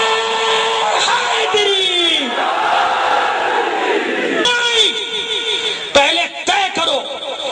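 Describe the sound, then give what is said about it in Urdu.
A rally crowd shouts slogans in loud unison, with massed voices chanting and calling back in surges and a few sharp, abrupt bursts near the end. “نعرے”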